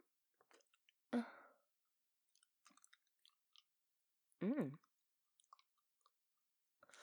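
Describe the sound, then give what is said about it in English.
Soft, slow licking sounds: quiet, wet mouth clicks and smacks scattered sparsely across near-silence, with two brief louder voiced bursts standing out. “Soft, slow licks like this?”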